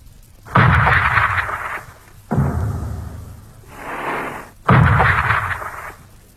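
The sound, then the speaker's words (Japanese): Naval gunfire bombarding the shore ahead of an American landing: three heavy booming blasts, each trailing into a long rolling rumble, with a softer swelling rumble between the second and third. “私は大地を揺り動かすような艦砲射撃の音で目を覚ましました。”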